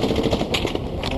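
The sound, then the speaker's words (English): Heavy machine gun fire in Iraq: rapid, dense, continuous cracking bursts, loud and unbroken across the short stretch. “Heavy machine gun fire. Iraq, a hostile, parched landscape.”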